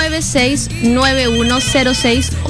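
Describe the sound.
A telephone ringing with an incoming call, a loud melodic ringtone of rising and falling tones in a quick repeating pattern that continues throughout.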